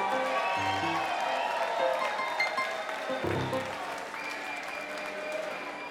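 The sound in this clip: Crowd applause welcoming a performing act at a live show, a steady wash of clapping throughout with brief shouts or voices rising over it.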